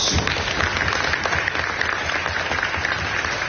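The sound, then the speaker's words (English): An audience claps for the First Amendment during a talk about the free press. The crowd applause is steady and continuous, with a crackly texture of many hands at a moderate, even level. “clapping for the First Amendment? Okay.”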